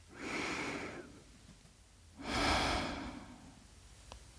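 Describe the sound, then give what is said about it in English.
A deep breath taken slowly and alone, heard as two long, soft breathy rushes of air separated by a short quiet gap. “please close your eyes and take a deep breath.”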